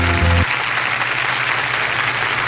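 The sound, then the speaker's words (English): A canned applause sound effect: steady, continuous crowd clapping fills the whole stretch at a constant level, preceded by a brief low tonal note at the very start. “Where'd that audience come from? They just, like, keep coming from the garage and going back. I wish I had it. That sound effect. Just following us around.”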